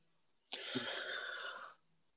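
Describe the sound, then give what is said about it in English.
One big inhale: a sudden, breathy rush of air lasting just over a second, fairly loud and heard on its own before cutting off. “That was the big inhale there, I think.”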